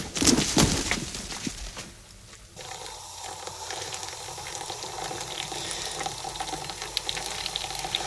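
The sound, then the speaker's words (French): Water boils for coffee with a steady, dense bubbling hiss. A few brighter splashy noises come at the start, then a brief quieter dip before the continuous boil settles in. “Ah, il prend le café, peut-être. Ah, et ça bouille, peut-être.”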